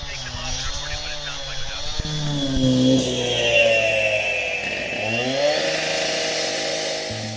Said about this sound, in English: Now someone has started to saw through the concrete nearby